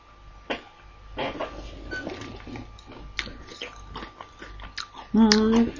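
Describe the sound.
Chewing and crunching on a homemade baked snack topped with linseeds, slightly burnt, heard as scattered crisp bites over soft background noise, with a brief voiced sound near the end.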